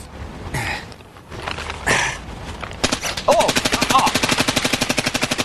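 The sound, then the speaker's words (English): Rapid gunfire from a gun shot by an expert during a shooting demonstration: a long burst of many sharp, evenly spaced shots in quick succession, preceded by a couple of duller noisy bursts. “Is that rapid fire? It's very rapid.”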